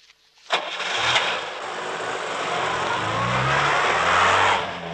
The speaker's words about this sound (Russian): Подошедшая с улицы Зойка провожает взглядом такси.